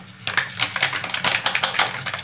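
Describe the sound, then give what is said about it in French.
A fork whisks egg yolks and grated parmesan, making a steady run of many light, rapid clicking taps at an even rhythm. “Voilà, je fouette à la fourchette, au fouet, faites comme vous voulez.”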